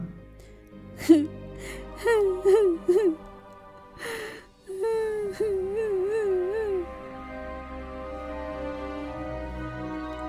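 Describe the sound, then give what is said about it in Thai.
A little girl crying, with high, wavering whimpering sobs that come in two bursts separated by a short pause, then trail off into a quieter background. “เด็กหญิงน้อยเริ่มร้องไห้ เธอผิดหวังมาก”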